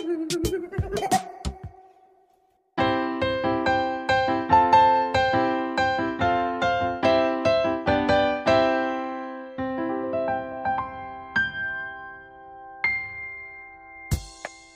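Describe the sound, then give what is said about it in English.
Piano notes ring out in a lively run of many strikes after a brief pause, each note decaying, with the playing thinning out and fading toward the end. “that is the sound of a piano.”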